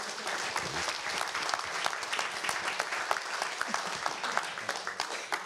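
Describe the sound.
Applause from an audience at an investor-pitching talk, welcoming a volunteer on stage. The brisk, even clapping is fairly faint and sustained throughout.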